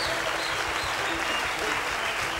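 Sustained audience applause for a singer, a dense, steady wash of clapping hands that stays loud and even throughout without letting up.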